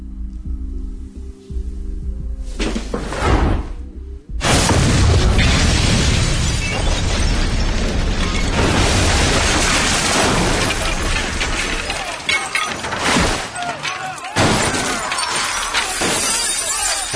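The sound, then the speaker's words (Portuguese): Explosion of a homemade chemical explosive: a loud blast with shattering glass and crashing debris, then a long stretch of dense, roaring noise with a few sharp dips and renewed bursts. “ele tá com um explosivo que ele fez químico na mão e pá, explode tudo.”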